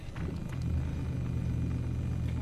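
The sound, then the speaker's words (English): An automatic car pulls out of a solar garage in Midrand as a low, steady rumble. The smooth, even drone has faint higher ticks above it and builds slightly early on, with no voices. “We're in drive mode. This is an automatic. Yeah. And off we go. What a smooth ride.”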